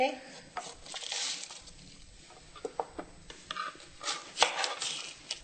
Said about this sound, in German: Wir haben also den Kohl klein geschnitten und sind dabei noch die Kartoffel und die Karotten in ungefähr Daumendicke zu schneiden.